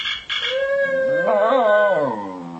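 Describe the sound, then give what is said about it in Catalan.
Two dogs, one in Britain and one in the United States, howl to each other: long, sustained, wavering howls that climb and waver in pitch toward the middle, then slowly sink and fade. “hi ha animals que tenen la necessitat de comunicar-se, com aquests dos gossos, un que està a la Gran Bretanya i l'altre que està als Estats Units. Mira, podem escoltar-los.”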